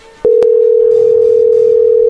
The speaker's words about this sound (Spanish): La llamada se cobrará al terminar los tonos siguientes.